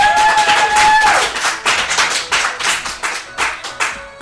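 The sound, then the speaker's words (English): A live studio audience claps in a loud, rhythmic series of sharp bursts that repeat steadily after a brief opening moment. “That was just about the most robust live studio audience we have had in years.”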